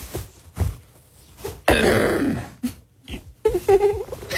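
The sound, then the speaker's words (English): A man's loud, harsh throat clearing, one long gravelly rasp set between shorter breathy vocal sounds. “It was that right there. After the after the big throat clear where he's like, I'm serious now. Serious newsman.”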